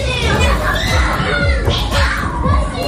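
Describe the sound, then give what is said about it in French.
Many children playing and making noise together, a loud, continuous jumble of shouts, chatter and high excited voices. “Voilà, c'est des enfants. Il y a plein d'enfants qui font du bruit.”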